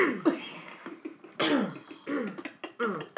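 Someone coughs and clears their throat in a series of short, harsh, raspy bursts, several in quick succession with brief gaps between them.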